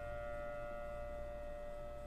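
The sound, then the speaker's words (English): A tornado warning siren sounds during a routine first-Friday test, a faint, steady tone held at one unchanging pitch throughout, with nothing else alongside it. “That's the tornado warning siren. Now, don't worry. You guys don't have to be scared.”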